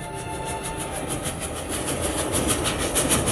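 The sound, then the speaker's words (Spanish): A train running fast and jolting over an uneven, rough track, a dense steady rumble carrying a rapid, regular wheel clatter that grows slightly louder toward the end, with no voices. “Corría el tren violentamente, cuneando, a causa de las desigualdades y asperezas de la vía, y su trepidación anhelante era como el resuello de un monstruo”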